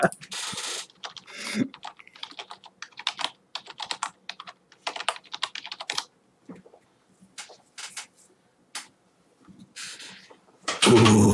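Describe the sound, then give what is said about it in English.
Typing on a computer keyboard: many quick keystrokes clatter in uneven bursts and short runs with brief pauses, ending in a louder, denser stretch. “Hold on. I will type it out.”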